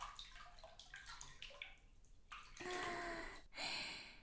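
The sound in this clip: Water sloshes and rushes as someone lowers into a forest hot spring bath: a few soft splashes, then two fuller bursts of rushing, spraying water, fairly loud, with no voices.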